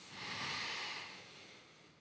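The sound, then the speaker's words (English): A slow inhale during a guided breathing exercise: a soft, airy rush of breath swells over about a second and then gradually fades, with no voices. “Okay, let's start together, okay? Inhaling very slowly.”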